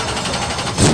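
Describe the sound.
A race car engine at full throttle on a speedway track roars in a brief, loud, raspy burst that swells even louder at the very end.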